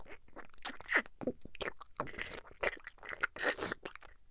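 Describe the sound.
Crunchy food is chewed in many quick, irregular bites, each giving a faint, crisp crackle with small scraping noises between them.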